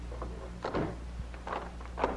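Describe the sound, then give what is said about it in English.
A door is shut with a soft wooden knock, and a faint lock click follows shortly after, both quiet against a low background hum. “Close the door and lock it, Bob.”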